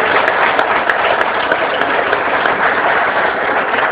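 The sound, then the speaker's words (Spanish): An audience at a public education event applauds, and many hands clap in a dense, steady roar for about four seconds without a break. “vamos a darnos un aplauso entre todos”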